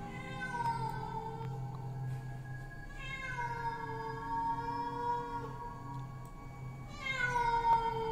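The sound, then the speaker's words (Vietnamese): Wild cats yowl loudly in a forest: a few long, drawn-out cries with rich overtones, their pitch sliding down and wavering, and a sharper cry rising near the end. “bầy mèo hoang ở trên rừng đang kêu lên inh ỏi. Một lúc tiếng mèo kêu bắt đầu nhiều hơn”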